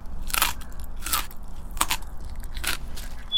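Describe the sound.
Crunchy bites into a mushroom, used as a story sound effect: a few crisp, crackling chews spaced fairly evenly, with no voices.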